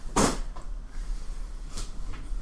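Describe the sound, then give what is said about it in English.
A video-game door is pulled open and shut: a heavy whooshing burst, then a second, softer burst about one and a half seconds later, over a steady low hum. “It's going to require a pull to get it all open because you are locked down and ready to go. Get it all open, get him inside, and close again before the space zombies arrive.”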